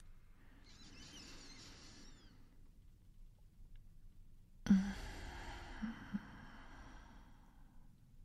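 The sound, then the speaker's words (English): Two deep breaths, taken on request, each a long airy hiss. The first is softer; the second begins with a sharp onset, is louder and trails off slowly. “Take two breaths for me.”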